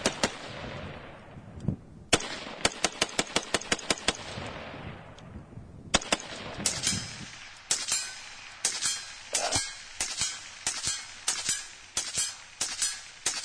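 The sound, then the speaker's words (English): Suppressed gunfire as rounds are shot at a target: many sharp cracks, first in a rapid string and then in irregular bursts, separated by brief quieter gaps. “Well, I mean, you are shooting 100 rounds straight.”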